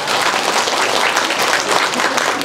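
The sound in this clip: An audience applauds during a talk at a Buddhist retreat, with dense, steady clapping that stays loud and even from start to finish.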